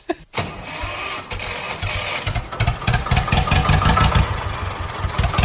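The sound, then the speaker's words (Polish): A red Ursus C325 tractor engine starts with a brief crank, catches, and settles into a steady, rhythmic mid-pitched chugging idle that grows slightly louder and rougher. “To jest mój czerwony Ursus C325. Czerwoniutki.”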